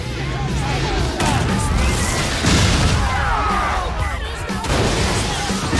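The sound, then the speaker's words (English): A bar explodes into a massive ball of flames, with debris falling around bikers. A loud, dense roar with crashing and rumbling continues steadily for about six seconds. “The whole bar goes up in a massive ball of flames, and the bikers try to shield themselves from the falling debris.”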